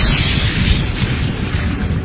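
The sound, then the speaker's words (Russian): A heavy thunderclap strikes as lightning hits a power plant building. It is a loud, dense roar, strongest in the low end, that rumbles on without a break for about two seconds. “Удар грома был такой силы, что на кустах облетела листва”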